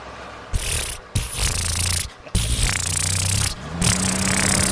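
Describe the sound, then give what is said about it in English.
A Volkswagen Beetle engine runs with a loud, rough, rattling buzz, breaking into several bursts separated by brief pauses, with a low droning tone beneath. “That's exactly how the Beetle sounded.”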